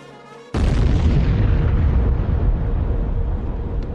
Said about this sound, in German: im Norden der Theresienwiese und um 22.19 Uhr geht die Bombe hoch.